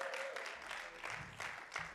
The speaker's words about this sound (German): Gebt ihm doch einen herzlichen Applaus.